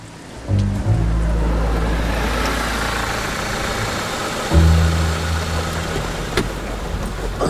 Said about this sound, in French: le jeune homme court vers la voiture grise qui vient de se rabattre sur le bas-côté et de s'arrêter quelques mètres plus haut.